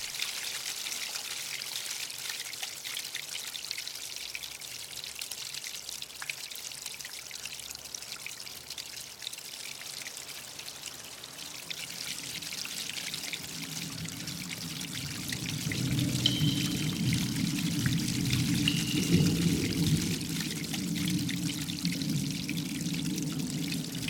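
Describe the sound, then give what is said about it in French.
A clear stream of fresh water flows in a continuous rushing, pouring wash that runs unbroken throughout and grows fuller and louder in the latter part. “Une eau vive, claire et limpide s'écoule sous vos yeux.”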